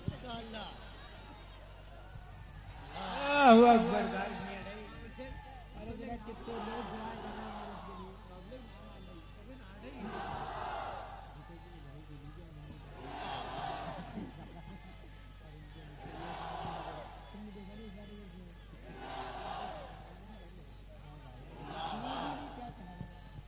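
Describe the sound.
A crowd shouts a slogan in unison in the rain, with a loud opening shout followed by regular bursts of massed voices every few seconds.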